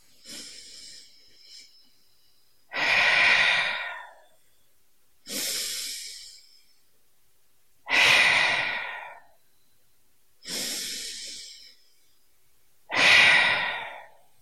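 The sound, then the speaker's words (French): Deep, slow breathing in and out during a grounding exercise, with both feet on the floor: five long, loud breath sounds separated by quiet gaps, with no talk. “on met nos deux pieds par terre et on commence avec les trois respirations.”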